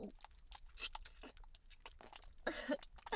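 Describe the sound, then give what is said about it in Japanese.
Wet licking and slurping of a slimy, lotion-like liquid, with soft, irregular smacks and mouth noises, faint throughout. “これ舐め取ってあげる。”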